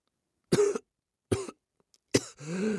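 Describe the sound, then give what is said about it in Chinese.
A few short, weak coughs from a person whose lungs are still irritated after choking, separated by silence, the last one trailing into a longer, strained voiced breath. “李富贵气息微弱地咳了两下，应该是肺里被呛的地方还是不舒服。”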